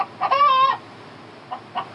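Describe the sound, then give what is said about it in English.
An aggressive chicken loose indoors in a room lets out one drawn-out, squawking cluck, then a few short, quieter clucks after a pause. “Yeah, there's a chicken in here. I had to go into the bathroom because of the chicken.”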